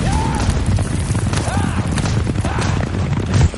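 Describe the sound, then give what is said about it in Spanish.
Galloping hooves of four black horses pulling a racing chariot in an ancient Roman circus, a rapid clip-clop over a rumbling low din. “Mesana conduce una cuadriga en el circo. Sus cuatro caballos son negros.”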